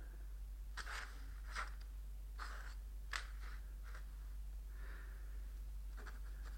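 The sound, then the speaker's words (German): Pen scratching on paper while drawing a lily: many short, quiet scraping strokes at irregular intervals over a steady low hum. “Heute war die Vorstellung für den König. Ihm zu Ehren zeichne ich die Lilie auf.”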